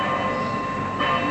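A wall clock strikes the hour with a sustained, ringing metallic chime full of steady overtones, loud throughout, swelling again briefly near the end.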